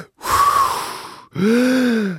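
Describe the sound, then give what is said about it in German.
Two forceful mouth breaths of Wim Hof breathing, each about a second long, breathy and slightly voiced, with a short gap between them. “Und dann geht es so eine Minute ein- und ausatmen, die ganze Zeit durch den Mund.”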